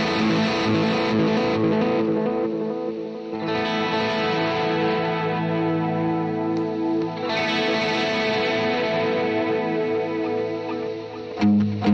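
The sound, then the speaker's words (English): Guitar played through delay and modulation effects: sustained, chorus-thickened chords with echoing repeats and a shimmering wash, loud and continuous for the whole passage without a break. “I love the delay. If you guys can't tell it by now, I love the delays. I love the modulations.”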